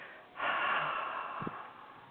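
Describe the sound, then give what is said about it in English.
A deep breath drawn in through the nose and let out through the mouth: a soft airy rush begins after a short pause and holds steady for almost two seconds, alone, with no talking. “beautiful deep breaths in through your nose, allowing your belly to swell just like babies breathe, and then allowing the exhale to just be natural through your mouth.”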